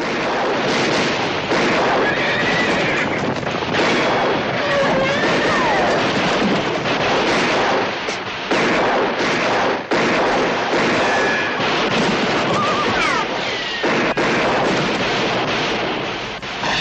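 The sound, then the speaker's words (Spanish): Gunfire in a horseback chase from a 1973 western train-robbery film, with riders shot from their horses. Sharp, scattered shots cut through a dense, loud, continuous roar of noise. “Los hombres van cayendo de sus caballos, alcanzados por las balas. Todos disparan con fiereza para derribarlos.”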